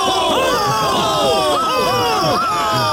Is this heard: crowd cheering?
yes